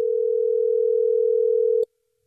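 A steady single-pitch telephone tone sounds while a call is being placed, loud and unbroken for nearly two seconds before cutting off abruptly into silence.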